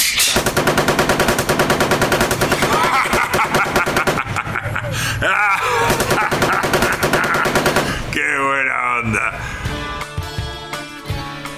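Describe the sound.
Rapid gunfire aimed at two motorbike thieves rattles in dense, fast bursts that run loud and nearly continuous, with a brief change in texture partway through before the shooting resumes.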